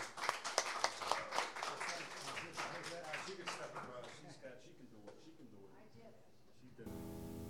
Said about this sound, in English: Please give Dave Jackson a big welcome.